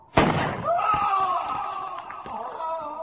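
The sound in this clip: A rifle shot in a radio drama: one sharp, loud crack near the start, followed by a long ringing tail that slowly fades.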